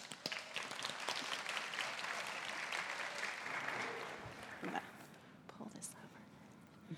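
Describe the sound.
Faint audience applause welcomes a guest joining the speaker at a faith gathering. Soft, dense clapping holds for about four seconds, then tapers into quieter scattered claps and murmuring.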